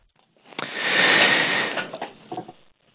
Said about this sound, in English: I just took a deep breath.